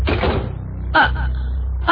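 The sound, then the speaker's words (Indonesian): A room door at the far end of a corridor swings shut on its own, giving a few dull thuds over a low, steady hum. “aku melihat pintu kamar yang paling pojok tertutup sendiri.”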